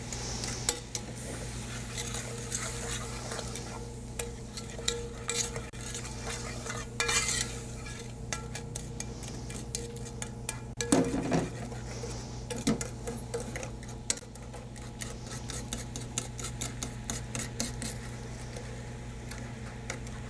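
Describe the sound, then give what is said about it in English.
A spoon stirs arrowroot to dissolve it in liquid, giving a long, steady run of light scraping clicks and taps that continues throughout with no talking. “Then stir to dissolve the ingredients, making sure that the arrowroot is dissolved in the liquid.”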